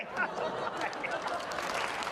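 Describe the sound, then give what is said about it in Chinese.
Audience applause at a live comic stage performance, a steady, fairly soft wash of many hands clapping that holds at an even level for the whole stretch. “您听着掌声啊，就听得出来。”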